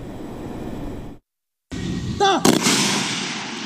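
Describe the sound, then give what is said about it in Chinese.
Sniper rifles fire during a live-fire precision assessment at targets, with a couple of sharp, loud reports close together following a brief gap of silence, set against steady background noise. “精度校验射击科目要求狙击手在规定时间内对百米外的靶标完成五次射击，弹孔散布控制在四厘米内。”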